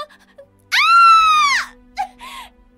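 A girl screams as she slips and falls while climbing on rocks. One long, loud, high wailing scream swells and then drops off, followed by two brief, fainter cries.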